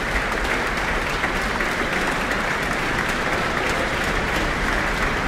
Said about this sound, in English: is back on stage now, basking in the applause.